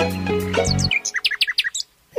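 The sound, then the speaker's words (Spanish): A little bird chirps in a vegetable garden among lettuces, giving a rapid run of many short, high-pitched tweets that is clear and fairly loud. “Así que eres tú, pajarito, el que destroza las lechugas de mi abuelo.”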